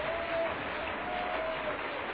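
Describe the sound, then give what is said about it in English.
An audience claps their hands during a morning church service, a dense and steady wash of clapping that holds at an even level for the whole moment. “Clap your hands and magnify Him.”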